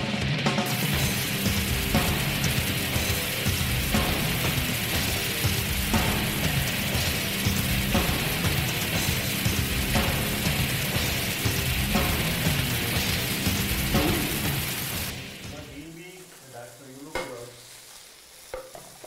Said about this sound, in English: So what we're going to do is heat up some oil in our pan. Make sure the oil is nice and hot. Now we're going to make the kebabs and put them in the pan.